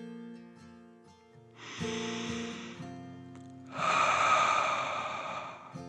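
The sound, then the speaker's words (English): A slow, deep breath in and then out, part of a calming dragon-breath exercise. Two long, airy hisses, the exhale louder and longer, over soft, steady background music. “Then one more deep dragon breath in and out.”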